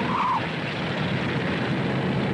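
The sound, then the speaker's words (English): A car slowly pulls away along a street, heard as a steady, broad engine and road rumble that stays even in level throughout, with no voices. “Majak slowly pulls away, followed by two cops on motorcycles.”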